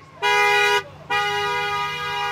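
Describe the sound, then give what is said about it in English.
Car horns honk at a protest calling to reopen California: one loud, steady toot, a brief gap, then a second, longer blare that runs to the end over low traffic rumble. “It read, "Honk to reopen California."”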